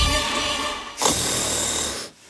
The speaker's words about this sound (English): Is snoring keeping your house awake?